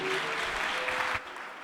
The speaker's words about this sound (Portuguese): As palmas são fortes para Cristo.